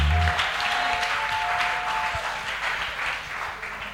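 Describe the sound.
Audience applause at a French-speaking Christian gathering: thick, continuous clapping that starts loud and softens gradually over a few seconds.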